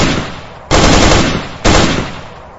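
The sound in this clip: Two short bursts of automatic rifle fire, loud and sharp, each opening with a hard blast and then trailing off, fired while backing down a corridor under attack.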